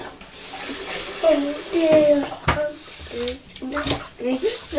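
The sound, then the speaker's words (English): Water poured into a pet's bowl at breakfast time, a steady running, splashing flow with hissy, bubbling texture, while voices talk over it. “Put some nice fresh food down. Give her a bowl of water.”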